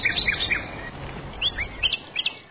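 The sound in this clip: Small birds chirping in quick, high, short tweets. Many chirps come in clusters near the start and again toward the end, with no voices.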